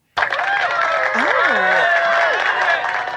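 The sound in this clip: A live audience applauds to welcome a guest, with a dense wash of clapping and crowd noise that stays loud and steady throughout.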